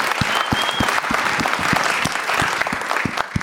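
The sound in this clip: Audience applause greeting comedian Geoff Tate as he arrives as a guest at a live show at a film festival: dense, steady clapping from a crowd that holds at an even level throughout.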